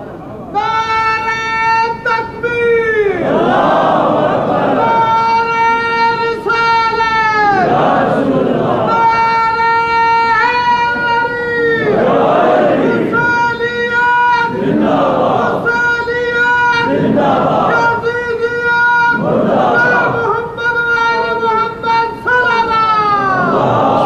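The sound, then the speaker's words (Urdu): A large crowd chants slogans in unison at a religious gathering, with many loud, rhythmic chanted phrases repeating one after another and brief swells of crowd noise between them. “ان نعروں کو صرف نعرہ نہ سمجھو، یہ مکتب ہے آپ کا”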